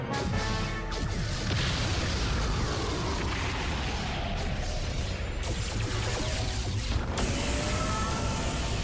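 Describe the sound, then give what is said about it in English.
Spaceship weapons fire and explosions as pursuing warships open fire, a dense, unbroken barrage of booms, blasts and crashing bursts layered over a heavy low rumble that stays loud throughout, with no voices. “Federation pursuit ships. They're firing!”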